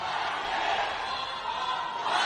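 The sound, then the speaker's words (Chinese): Spectators and fans chant "China champion" after China's team wins the World Cup. The massed voices make a loud, continuous roar that holds steady throughout. “现场的观众，现场的球迷们也是高呼着中国冠军。”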